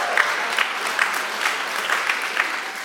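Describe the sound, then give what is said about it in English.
A church audience applauds, dense steady clapping that holds throughout with slight swells, and no talk over it. “Let's have a hand for the heterosexual idolaters.”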